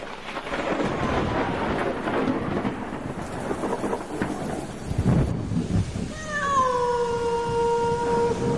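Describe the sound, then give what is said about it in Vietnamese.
Rain and a thunderstorm outside a dilapidated, leaking house: a dense, steady rain hiss with a heavy thunder rumble midway, followed by a drawn-out, wailing cat-like cry whose pitch slowly falls. “Ở bên ngoài trời vẫn mưa, những tia sét lóe lên chiếu vào hai cái thân hình khốn khổ ở trong cái ngôi nhà dột nát này.”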